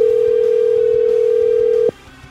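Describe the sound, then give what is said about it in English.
A steady telephone dial tone as a call is about to be dialed: a loud, continuous hum that cuts off abruptly with a click, leaving only faint low noise. “Now, let's dial the phone.”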